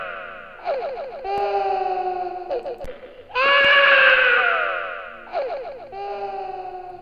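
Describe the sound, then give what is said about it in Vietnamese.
A child crying bitterly as a sound effect: several high, wavering wails with sliding pitch. A long, loud sustained cry sits in the middle, with shorter sobbing bursts before and after it, and a slightly echoing quality. “Còn vương lại tiếng trẻ con khóc đến thảm thiết.”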